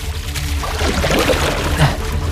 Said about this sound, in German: Ich nehme das Ruder jetzt zum Paddeln.